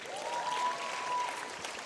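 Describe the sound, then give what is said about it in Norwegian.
Audience applause, a soft, even wash of many hands clapping, with a faint sustained tone running through the first half. “Og, ja, det bør da gi en applaus til.”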